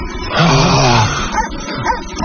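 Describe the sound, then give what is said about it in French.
Dogs barking and yelping, loud against a dense, rough background noise, with a sustained whining cry early on. “Des chiens, attention.”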